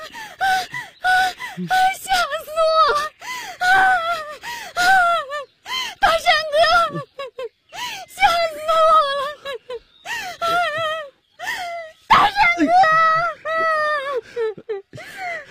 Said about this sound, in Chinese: 别哭，你别哭啊。